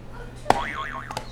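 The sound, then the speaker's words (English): Springy cartoon boing from a pressed buzzer button: a sharp click, then a wobbling, warbling tone for about half a second, ending in a second quieter click. “Can you hit another buzzer for me?”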